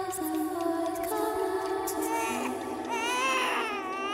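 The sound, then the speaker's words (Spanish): A baby crying at home after dark: a continuous, high, wavering wail whose pitch rises and falls toward the end. “Ya estaba oscuro cuando el bebé empezó a llorar.”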